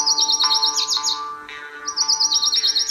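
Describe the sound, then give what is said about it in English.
Lucy's warbler, a tiny Sonoran Desert warbler, sings rapid, high-pitched chirps in two quick bursts separated by a brief pause. “But what's the smallest warbler? The answer, it's Lucy's warbler.”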